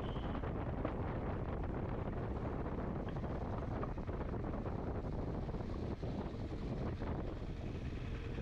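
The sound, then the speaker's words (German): Wind roaring across the microphone while riding a motorcycle: a loud, steady, rushing noise that fills the whole clip with no break and no voices. “zum Beispiel jetzt, ich fahre Motorrad”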